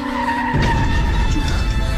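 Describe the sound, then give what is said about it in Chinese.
A car skids after its brakes fail, producing a loud, sustained screech and roar of tires that runs without a break from start to end. “快刹车！ 刹车失灵了。”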